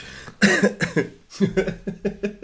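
A rapid run of many harsh, voiced coughs from a person who is eating, each burst following closely on the last with no talk between them.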